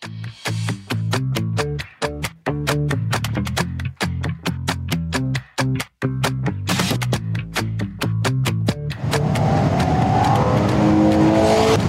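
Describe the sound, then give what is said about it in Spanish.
Engine noise from a Ferrari Purosangue, the Italian maker's first four-door car: loud revving in repeated surges with brief sharp cutoffs, ending in a rough, broad roar over the last few seconds. “Ferrari, el legendario fabricante de automóviles italiano, ha presentado su primer vehículo de cuatro puertas en su historia. Este es el puro sangre.”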